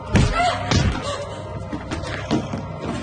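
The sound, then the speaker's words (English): A person is thrown across a kitchen table, making heavy thuds and a slam: two loud impacts come early, then rougher lower knocking and scuffling follow at a moderate level. “She flies across the kitchen table.”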